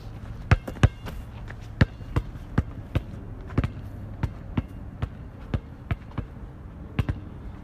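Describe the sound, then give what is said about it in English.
A basketball is dribbled through a crossover before a three-point shot. Many sharp, loud bounces thud against the floor in a steady, slightly uneven rhythm, with a quick double bounce near the start, and no one speaks. “Crossover dribble, shoot the three.”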